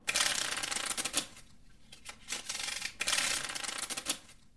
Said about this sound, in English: So, we have a little surprise present for you. I'm going to be doing a three card tarot pull.